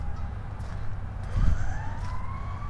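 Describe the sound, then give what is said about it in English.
Emergency vehicle sirens on West Maple Road, faint wailing tones that slowly rise in pitch over a steady low rumble. “sounds like there's emergency vehicles on West Maple Road.”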